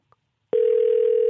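A telephone dial tone as a call is being placed: a tiny click, a short pause, then a loud, steady, unbroken tone.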